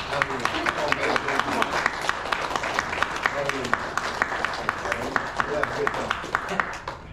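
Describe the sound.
A church audience applauds a visiting evangelist at a morning service, a steady, dense clapping that carries on through the whole stretch, with voices calling out over it.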